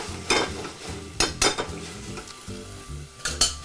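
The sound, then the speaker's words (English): Tomatoes and sofrito sizzling as they fry in a pan, with a few sharp scraping clatters from a utensil stirring them against the pan over the continuous crackle of frying. “These are cooking nicely. Our tomatoes are cooking nicely.”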